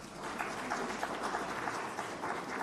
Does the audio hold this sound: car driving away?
no